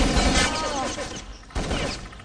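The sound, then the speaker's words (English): LR-300 rifle fire in a competitive bomb-plant video game match makes a dense, loud clatter of rapid shots, breaking off briefly before the firing resumes. “it's going to be AF with the LR-300 cutting down Wolverine”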